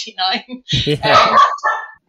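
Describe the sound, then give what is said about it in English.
A dog barks a few short, sharp times, then people talk over the end of the barking. “even the dog is called Hamish”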